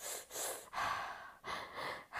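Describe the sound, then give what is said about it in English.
Rhythmic breathing demonstrated by a person, the quick breath pattern some runners use: a steady series of loud, airy breaths separated by brief gaps, with no talk. “some people like to have a breathing rhythm, like that sort of thing”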